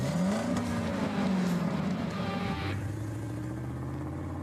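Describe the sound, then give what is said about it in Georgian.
Engine of a 1980s Porsche 924 car running, a steady revving drone that climbs briefly early on, then settles into a lower, smoother hum for the last part. “ეს მანქანა 80-იანი წლების ნამდვილი ლეგენდა. Porsche 924.”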